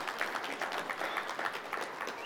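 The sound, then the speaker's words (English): A church audience in Northwest Montana applauds, giving soft, continuous clapping of many hands with an even, fluttering texture that holds steady for the whole stretch. “First service, people applauded. You can do that too. We can clap for that.”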